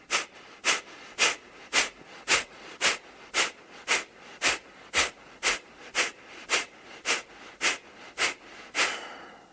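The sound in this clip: Kapalabhati breathing, many rapid, forceful exhalations through the nose in a steady, even rhythm, each a short, sharp rush of air, ending in one longer, softer breath.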